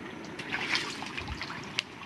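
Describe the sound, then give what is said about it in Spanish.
Dam release water flowing into fishermen's homes near the El Quimbo reservoir, a soft, steady trickle and gurgle with a few small drips, low in level. “Esto es lo que siempre ocurre cuando le sueltan agua”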